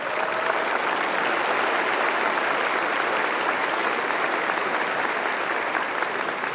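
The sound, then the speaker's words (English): A church audience applauds a baptism candidate during a service. Dense, sustained clapping holds at a steady loudness throughout without a break. “you know, the applause and the cheers and the gusto for each one.”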